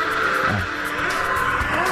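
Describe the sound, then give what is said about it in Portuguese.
Roaring engines of motorcycles street racing on the Paralela avenue, a loud, continuous, steady drone with no breaks and a droning low tone that shifts slightly. “Aí, recebi o vídeo aí, meu amigo Martins mandou aqui. Motocano fazendo corrida na paralela. Pega na paralela.”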